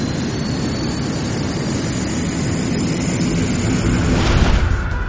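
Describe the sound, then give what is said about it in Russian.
Roar of a carrier rocket launching from the Vostochny cosmodrome: a loud, continuous low rumble with broad noise that holds steady and swells slightly near the end. “Ракета-носитель только что стартовала с космодрома «Восточный».”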